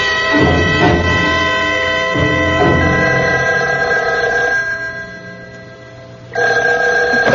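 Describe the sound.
A telephone bell ringing in a loud, sustained metallic trill that goes on for several seconds, briefly drops away, then starts ringing again.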